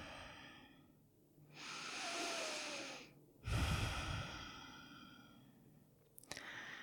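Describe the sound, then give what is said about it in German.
Deep breathing during a mindfulness exercise: one slow, airy inhale, then a long, heavier exhale. Both are soft and alone, with a faint click at the end. “Und atme nochmal tiefer ein und aus.”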